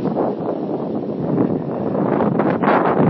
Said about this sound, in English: We'll see, the wind is building up.